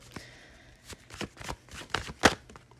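Tarot cards being shuffled and drawn: a few soft papery riffles and flicks in an irregular rhythm, quiet overall. A sharper slap near the end is the loudest.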